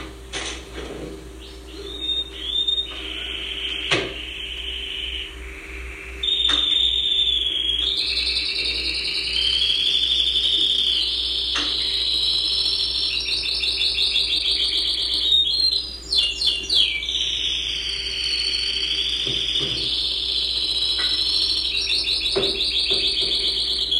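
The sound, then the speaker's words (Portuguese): Canary singing a long, continuous song of high, bright warbles and rapid trills that rise and dip in pitch, carrying on steadily with only brief pauses. “Agora vamos deixar o canário cantar.”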